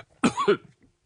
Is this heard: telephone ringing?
no

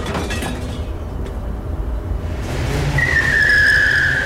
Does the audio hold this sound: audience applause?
no

